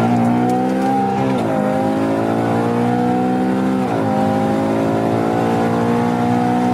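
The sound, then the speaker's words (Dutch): A Ferrari Purosangue V12 accelerates with a steady, deep, throbbing roar that climbs in pitch, dips twice as gears shift, then pulls on again, alone with no talking. “Dus de Puro Sanke, dat is geen SUV. Noem het echt geen SUV, maar ja, een soort crossover. Maar eigenlijk stiekem wel een SUV. Met een heerlijke, dikke V12.”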